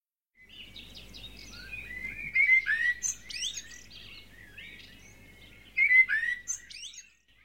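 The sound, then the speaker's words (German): Birds singing: many high chirps, trills and warbles come in uneven bursts, with the loudest phrases near the middle and close to the end, over a faint low rumble. “Die Vögel singen.”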